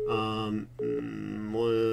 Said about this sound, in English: Oh, gosh, I'm getting another call.